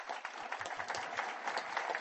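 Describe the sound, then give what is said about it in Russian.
Applause from an audience honouring the finalist teams of a youth competition in Tatarstan: dense, steady clapping from many hands, fairly faint, heard alone without speech for the whole stretch. “Сегодня здесь собрались финалисты, лучшие команды нашей республики. Поздравляю вас! Аплодисменты вам!”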